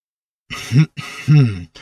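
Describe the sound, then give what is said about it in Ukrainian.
A voice imitates a firework rocket, tied to a long stick, clearing its throat: a couple of gruff, throaty rasps in quick succession, followed by the brief start of another. “Ракета завжди покашлювала, перш ніж заговорити. Так вона привертала до себе увагу.”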